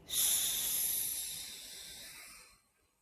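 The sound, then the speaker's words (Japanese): A long breath out through the mouth during a slow neck-rolling stretch, a soft airy hiss that starts abruptly, holds steady for over two seconds and gradually fades to silence. “では吸って、吐きながら回しましょう。”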